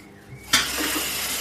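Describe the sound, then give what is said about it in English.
Rice being rinsed under running tap water while cooking lime rice, heard as a steady, hissing rush of water that starts abruptly after a quiet moment and continues evenly to the end, with no talking. “So we'll give this rice a little rinse. Some of it will probably fall through.”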